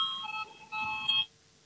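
An electronic bell rings during a parliamentary session to call members to a vote, sounding as a couple of bright, steady ringing bursts before cutting off into silence.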